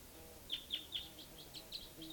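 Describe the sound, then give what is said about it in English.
Wild birds and calling decoy birds give a row of short, high chirps in the late evening. About eight faint, evenly spaced chirps sound over a low steady background. “there's a type 2 bird coming in. There's also a type 4 bird down here. And the decoys are calling.”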